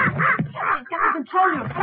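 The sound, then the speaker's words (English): A parrot calls in four loud, harsh, raspy squawks of similar length, separated by brief gaps. “Nice little parrot.”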